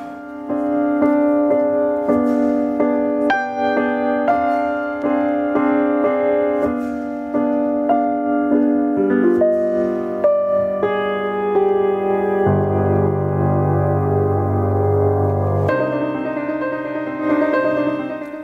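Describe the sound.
Instrumental music plays alone with no voices: steady rhythmic notes over sustained tones, shifting through several chord changes at an even, moderately loud level.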